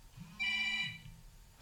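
An electronic telephone ringtone signals an incoming call to a phone-in line, sounding as a single bright, buzzy harmonic burst of about half a second over a low, steady background.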